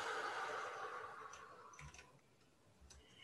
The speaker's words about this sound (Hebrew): שלוש שאיפות עמוקות. שאיפה הראשונה, נשיפה.